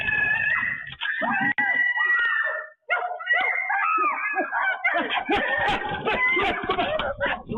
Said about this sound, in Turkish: Küçük kız korkudan çığlık atarken çevredekiler gürültü yaparak ayıyı uzaklaştırdı.